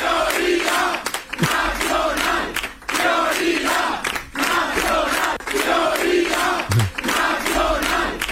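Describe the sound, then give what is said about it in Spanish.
Political party supporters chanting a slogan in unison on election night, a loud crowd repeating the same rhythmic phrase over and over without pause. “El sonido de la noche electoral estuvo en los cánticos de los simpatizantes de Vox, prioridad nacional, y para corearlo con acento en la O, prioridad.”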